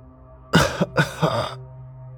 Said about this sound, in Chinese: 爷爷又咳了几声。更加的气若游丝